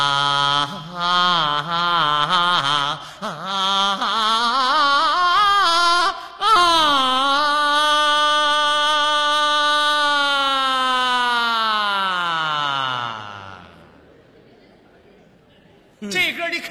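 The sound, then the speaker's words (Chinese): A voice imitates an ambulance siren with a loud, drawn-out wailing howl. Its pitch wavers early on, then holds a long sustained tone that slides downward before fading out. “这是 喊救护车呢，嗷嗷的。”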